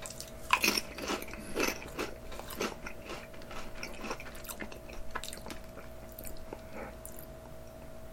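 Crunching on ketchup-flavoured potato chips: many crisp, sharp bites and chews, loudest in the first few seconds and softer afterward, over a faint steady hum, with no talk.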